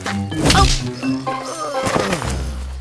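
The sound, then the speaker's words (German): A wooden club strikes a blow in an audio drama, a dull heavy whack near the start that is followed by ringing, sustained tones. “Er geht zur Hütte von Grünspanix, schleicht sich von hinten an Asterix heran und versetzt ihm mit seinem Knüppel einen Schlag.”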